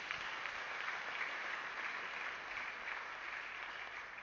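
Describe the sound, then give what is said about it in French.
A church audience applauding: a continuous, even wash of many hands clapping together, fairly faint and steady throughout without pauses or voices. “Acclame-toi toi-même.”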